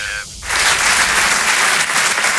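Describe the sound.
Audience applause at the Rire et Chanson Comedy Club: after a brief tonal moment, a dense burst of clapping swells in and carries on steadily and loudly to the end.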